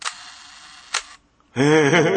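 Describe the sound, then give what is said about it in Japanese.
A Leicaflex single-lens reflex camera shutter fires a one-second exposure: a sharp click, then a second click about a second later, followed by a louder, sustained tonal sound. “1秒のこれシャッターです。 ライカフレックス。”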